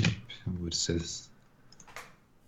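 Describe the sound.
Light clicks of typing on a computer keyboard during an online search: a few quick taps following a stretch of speech.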